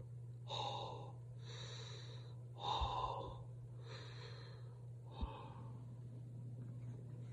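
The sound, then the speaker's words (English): Ragged, gasping last breaths of a dying battle-hardened warrior: a few faint, rasping inhales and exhales spaced apart, with one sharper catch, over a low steady hum. “the last three breaths of a battle-hardened warrior”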